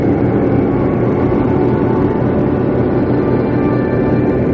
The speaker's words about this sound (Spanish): Más tarde, al amanecer de un día lleno de niebla, un pequeño avión aterriza. Con una luz en su morro, ilumina la pista.